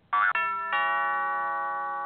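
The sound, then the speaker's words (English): An electronic doorbell chimes at a palatial estate in Kansas: two quick opening notes, then a third tone that rings on as a long, sustained, slowly fading bell. “What an eccentric doorbell.”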